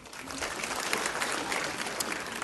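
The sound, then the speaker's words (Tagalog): Congregation applauding during a church worship service, a steady, dense patter of many hands clapping that carries on without a break from start to finish. “Palakpakan po natin si Lord.”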